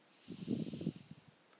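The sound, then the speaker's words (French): A slow, audible exhale during a guided breathing exercise: one breath of about a second with a low, softly rumbling, slightly voiced texture that fades out. “Et j'expire.”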